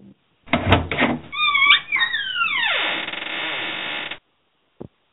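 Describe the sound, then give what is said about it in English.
A vault-opening sound effect: a low thump and rumble, then layered tones that bend sharply downward, settling into a steady hum that cuts off abruptly, followed by a single short click. “I think that's the sound of the vault opening.”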